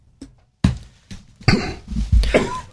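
A person coughs and clears their throat from a tickle in the throat: a faint first hack, then a few loud, rough coughs and throat clearings in an uneven rhythm, with no talk.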